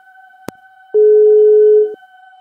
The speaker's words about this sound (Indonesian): Langsung kita telepon. Nah, kita telepon aja dulu.